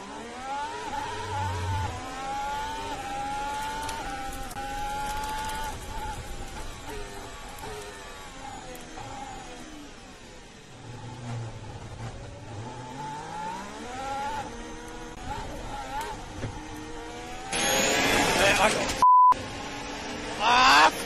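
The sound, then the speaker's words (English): High-revving Formula One car engine on the first lap of the Bahrain Grand Prix, heard onboard, its whine climbing and dropping through gear changes, with radio voices speaking throughout. “Let's listen to an edited version of Romain Grosjean's disastrous first lap.”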